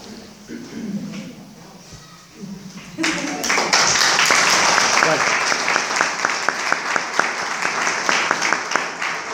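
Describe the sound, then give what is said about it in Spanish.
Audience applause at a parenting lecture on raising adolescents, starting after about three seconds of quiet murmuring and swelling into steady, loud clapping with sharp individual claps that continues to the end. “Lo bueno que me dieron dos aplausos.”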